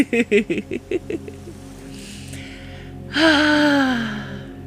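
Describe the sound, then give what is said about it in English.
Deep breathing in and out: a quick series of short voiced pulses, then a soft airy inhale, followed by a louder, voiced sighing exhale that falls in pitch. “So, just taking deep breaths in and out.”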